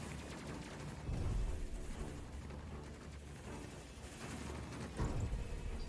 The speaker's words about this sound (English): Tagged him. Okay. Now we can start shooting back.